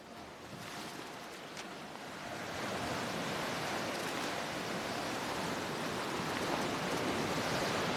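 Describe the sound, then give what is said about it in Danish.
Rough morning sea waves wash onto the shore at Lesbos, a dense, steady surf roar that swells louder after the first couple of seconds and then stays even. “Havet, det viser virkelig tænder her til morgen.”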